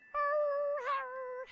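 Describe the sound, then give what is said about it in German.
A cat meows in one long, drawn-out call. The pitch stays high and steady, with a brief wobble near the middle, and no other sound is heard. “Oder über tanzende Katzen. Miau und miau.”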